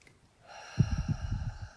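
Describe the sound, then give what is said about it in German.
A deep breath in and then out, taken during a guided relaxation exercise with hands shaken out and eyes closed. A soft airy inhale rises, followed by a fuller, rougher exhale with a few low puffs of breath. “Schüttel deine Hände aus, schließ deine Augen, atme hier einmal tief ein, tief aus.”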